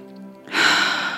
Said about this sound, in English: quieting down the body, taking a deep breath in through the nose